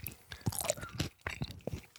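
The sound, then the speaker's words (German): Food is chewed during a vitamin-rich meal, producing many crisp, crunchy munching sounds in a quick, irregular rhythm, fairly faint and with no talk. “munching my, munching my meal.”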